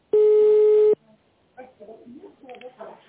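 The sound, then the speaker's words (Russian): A telephone ringback tone sounds while a call connects: one steady, mid-pitched electronic beep lasting under a second, followed by a voice speaking. “Соединение установлено. Пожалуйста, подождите.”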